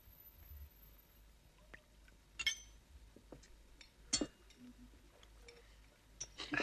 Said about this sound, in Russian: За тебя. Все чокаются.